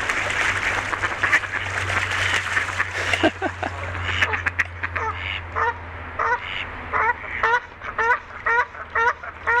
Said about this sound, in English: you can hear the ducks. You got some ducks, you got some loons